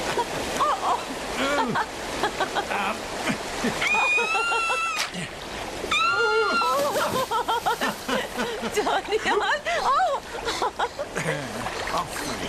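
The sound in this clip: Water splashes repeatedly as a child swims, with choppy bursts of spray throughout and voices calling out over the splashing.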